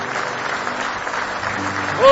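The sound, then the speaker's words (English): A church audience applauds with dense, steady hand claps that hold an even level for about two seconds and grow slightly louder at the end. “Give Him a big hand clap of praise if you love Him.”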